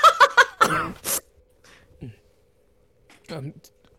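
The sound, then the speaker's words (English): A character coughing: a few short, harsh coughs in quick succession, followed by quieter scattered sounds. “That's the character coughing.”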